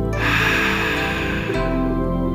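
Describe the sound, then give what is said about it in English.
A deep breath drawn in and let out, a long, airy rush of air that stays fairly loud and steady for a couple of seconds. “take a deep breath and out.”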